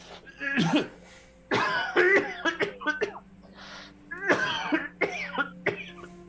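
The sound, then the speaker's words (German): Heavy, harsh coughing acted out by a player voicing a character in a role-playing game, many rough hacks and throat-clearing bursts in irregular clusters, fairly loud, with no talk between them. “Ich Fang heftig an zu husten.”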